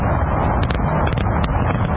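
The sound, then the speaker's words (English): Fireworks at the closing ceremony of the 2006 Winter Olympics in Turin, heard as a dense, continuous low rumble of bursts with a few sharper cracks rising above it. “Fireworks from the closing ceremony of the 20th Winter Olympic Games.”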